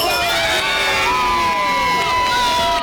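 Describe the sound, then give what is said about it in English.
Loud, sustained cheering and high-pitched shouts from a crowd at a football watch party during a Switzerland versus Canada match, holding at an even level throughout. “cheers erupting from the crowd with everyone on the edge of their seat.”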